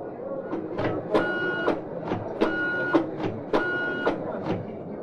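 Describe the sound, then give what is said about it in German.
A printer printing out a list sorted by country, with a rhythmic, repeating pattern of whirring and clacking in several regular cycles at a steady pace. “Einen Augenblick bitte. Ich drucke es Ihnen nach Ländern aus.”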